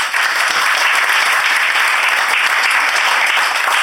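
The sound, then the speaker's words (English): Audience applause at a live panel show: dense, loud clapping from many hands that stays steady for the whole stretch, with no talk over it. “So round of applause for”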